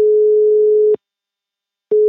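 Ringback tone of an outgoing telephone call: a steady, single-pitched, mid-range tone lasting about a second, then a second of silence before the same tone starts again. No voices are heard.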